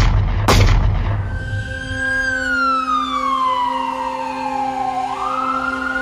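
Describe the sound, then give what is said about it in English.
Trailer audio for the documentary The Trials of Alan Dershowitz: a sharp booming hit, then a loud, long siren-like wail that sweeps slowly downward before turning back up near the end. “If you didn't hear my primer on this yesterday, here's the trailer to this incredibly comprehensive, informative, and quite frankly, entertaining new documentary.”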